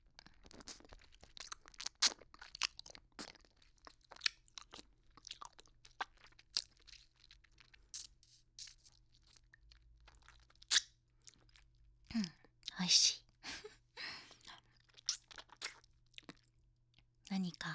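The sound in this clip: Close licking and crunching on a hard lollipop candy, heard as many small wet clicks and crisp crunches in an irregular rhythm, faint overall, with a denser cluster of louder crunches toward the end.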